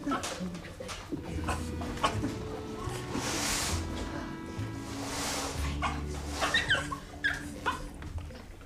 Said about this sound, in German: Augenblick, ich muss nur erst den Hund versorgen.